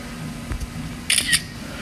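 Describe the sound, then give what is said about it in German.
Two quick, crisp clicks of a camera shutter taking a photo, close together and fairly faint over a steady background hiss. “Ja, ich habe schnell ein Foto gemacht.”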